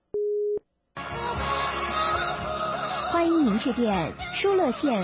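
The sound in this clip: A single steady telephone call tone sounds briefly as a call is placed, then stops, and after a short silence people start talking.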